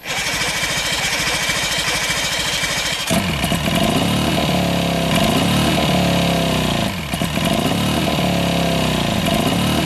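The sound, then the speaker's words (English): An engine is started and tested after its choke is adjusted. A rough, buzzing start gives way to a loud running engine about three seconds in, with a few rising and falling surges of revving. “So we're gonna kind of test the engine out.”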